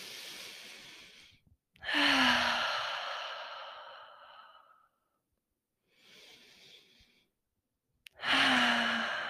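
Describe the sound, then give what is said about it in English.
Two big, deep breaths taken slowly: each begins with a quieter inhale and ends in a long, loud sighing exhale, with short silent gaps between them. “Let's take two big breaths together.”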